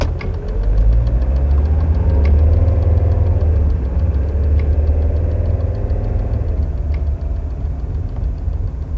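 Car engine runs at a steady, deep rumble with a slight knocking texture, continuous and fairly loud throughout, with no talk.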